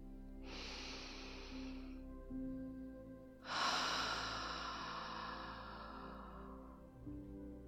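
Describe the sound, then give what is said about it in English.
Slow, deep breathing alone: a hissing inhale lasting over a second, then a pause and a longer, airy exhale that gradually fades. “And begin to deepen your breath in and out.”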